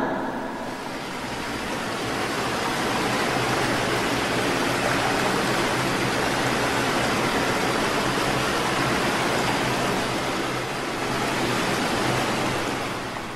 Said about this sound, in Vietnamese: vừa chuẩn bị xong đã nghe Nhạc Dương khản giọng hét lớn, thác nước ngầm.